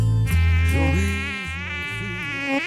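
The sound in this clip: A mosquito buzzes close to the ear, a thin, continuous whine whose pitch wavers and bends up and down without pause, with no voices.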